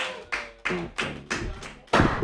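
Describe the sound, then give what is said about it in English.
Comedy-workshop audience clapping as a comedian is introduced: a steady series of loud, evenly spaced crowd bursts, with some cheering voices underneath. “Put your hands together for Jared Senna. Yay!”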